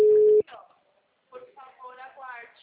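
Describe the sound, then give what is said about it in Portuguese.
A telephone dialing tone opens with a single short, loud, steady beep that cuts off abruptly. After a brief pause, someone starts talking. “Tô discando aqui, tá normal.”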